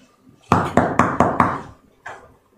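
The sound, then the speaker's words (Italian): Knocking on a room door: five quick, evenly spaced raps, then a single softer knock after a short pause, each a sharp wooden thud. “provo ad andare a bussare prima alla sua stanza”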